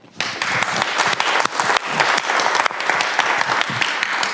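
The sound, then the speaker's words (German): Audience applause greets a speaker before a talk on Linux kernel development: dense, steady clapping that starts abruptly just after a brief quiet moment and keeps going at an even, fairly loud level without voices. “Und deshalb sage ich mal, einen schönen Startapplaus für den Vortrag von Thorsten.”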